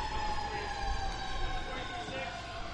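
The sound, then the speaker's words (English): Emergency sirens sound outside during a baseball game in Kinston, a faint steady wail held low under constant background noise. “Here's some sirens outside.”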